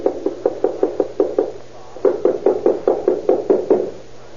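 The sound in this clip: Knocking on an apartment door by police: two bursts of steady, evenly spaced hard raps, about eight and then about nine, separated by a short pause, loud and with no voices.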